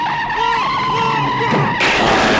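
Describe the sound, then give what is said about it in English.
Car tires squeal in a skid as a man is run over by his own car. Wavering high squeal tones rise and fall over engine noise, then a sudden louder, noisy burst near the end. “And just gets run over with his own car”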